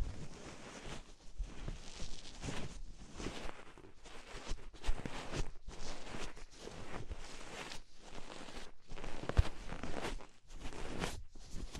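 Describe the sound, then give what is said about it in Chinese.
ASMR wiping of the outside of an ear to clear away excess foam, soft, close rustling swipes repeated many times in a steady rhythm, quiet and with no talk. “现在我帮你把耳朵外面稍微擦一下，把多余的泡沫给擦掉。”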